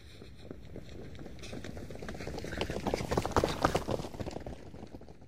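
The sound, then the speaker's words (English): A runner in sports clothes dashes through an art gallery, making quick, faint footfalls that grow louder toward the middle and then ease off. “A man wearing sports clothes running through the gallery as fast as he can? Oh, look. Now there's another runner.”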